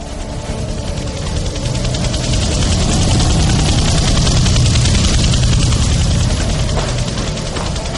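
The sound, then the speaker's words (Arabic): Israeli military helicopters ferrying soldiers away from a battle position in a war drama, heard as a loud, continuous engine roar with a steady heavy rumble that holds evenly throughout and no voices. “طيارات هليكوبتر إسرائيلية بتنقل الجنود بتوعهم من الموقع”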